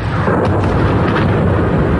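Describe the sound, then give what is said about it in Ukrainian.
Explosions boom across Moscow as factories burn. A loud, deep rumbling roar is broken by a few sharper bursts. “У нас бахает. От взрывов орут машины, пищат здесь по соседству.”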